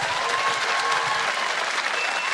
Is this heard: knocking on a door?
no